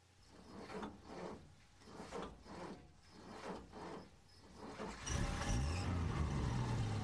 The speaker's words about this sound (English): Noise of the engine must have attracted them.